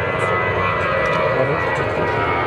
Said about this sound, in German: falls ihr mich hört, jetzt fliegt gerade ein Airbus hoch.